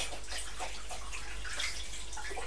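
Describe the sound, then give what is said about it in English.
Running tap water pours as someone washes their hands, a steady splashing hiss that holds evenly for the whole moment without talk. “Mummy was just washing her hands, she couldn't see.”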